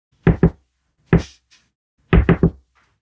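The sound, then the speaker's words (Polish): Secret code knock on a door: two quick raps, a pause, a single rap, another pause, then three fast raps in a row, each loud and hollow against silence. “I jak będziesz wracał, pamiętaj sekretny kod pukania.”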